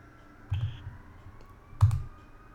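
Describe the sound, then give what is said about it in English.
Two distinct clicks on a computer, spaced about a second apart, as vote results are revealed in a game, set against a quiet background. “Well, I'm gonna click these things. It's gonna tell you what like everyone else voted.”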